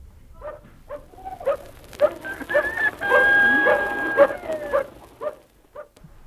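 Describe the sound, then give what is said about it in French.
A dog barks at the threshold of a farm in central France, giving many sharp barks and yips at uneven intervals, with a rooster crowing during the louder middle stretch. “ce chien qui nous a accueillis au seuil de la ferme”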